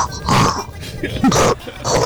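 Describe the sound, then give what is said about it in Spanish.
A human voice imitates a pig with a few rough, nasal grunting oinks. The sounds are fairly loud and come in short bursts separated by brief pauses. “Un cerdito. A ver, ¿cómo le hacen los cerditos?”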